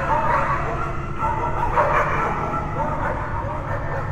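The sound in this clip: Dogs bark, with repeated barks, yips and a whimpering tone over a dense, droning background.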